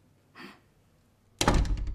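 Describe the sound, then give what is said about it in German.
A door being closed: a soft, brief scrape or swing, then about a second later a heavy, loud thud with a short rattling tail that fades quickly. “Ich schließe die Tür hinter Matej Hamidovic.”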